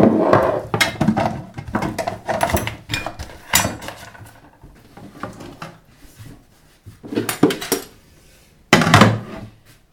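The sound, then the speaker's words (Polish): A spoon scrapes and scoops tomato sauce out of a small jar while making a pizza margherita, giving irregular bursts of clinks and scraping with brief pauses between them and no talking. “Biorę łyżeczkę i wygarniam sos.”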